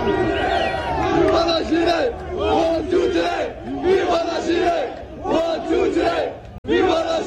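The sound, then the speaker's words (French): A crowd at a demonstration in Montréal-Nord chants 'Viva l'Algérie' in loud, rhythmic bursts, repeating phrase after phrase with brief dips between them, and the chant cuts out sharply once before resuming. “C'est Viva l'Algérie. OK. Dans une manifestation pour le poste 39 à Montréal-Nord.”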